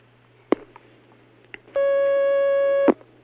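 A telephone line tone sounds as a caller is connected: a few faint clicks, then one steady, loud electronic tone lasting about a second over a low hum, ending with a click.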